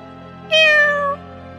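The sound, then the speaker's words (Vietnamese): A black cat gives a single clear, drawn-out meow of about half a second that starts bright and slides slightly lower, over a faint steady low hum. “Lúc này, con mèo đen kia ở phía trước giục.”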